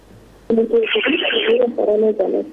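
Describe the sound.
A telephone rings for a listener's call-in to a radio show, with a buzzing, warbling ring tone that starts abruptly partway through and continues under a voice.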